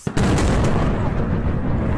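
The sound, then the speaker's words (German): A heavy explosion at the occupied seaport of Feodosia during a military strike hits with a sharp, loud onset, then a sustained, dense rumbling roar that stays loud to the end. “Auf Videos in den sozialen Netzwerken sind mehrere heftige Explosionen zu hören.”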